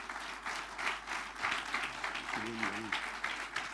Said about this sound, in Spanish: Así que denle ese aplauso de alabanza al Señor.